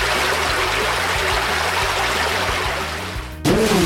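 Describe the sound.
Flooding water attack in a video game battle: a steady, loud rush of flowing water over a low rhythmic pulse, dipping briefly near the end before a sudden short swell.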